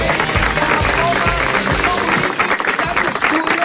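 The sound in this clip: Enthusiastic studio audience applauding, a dense, steady wash of many hands clapping at full loudness throughout.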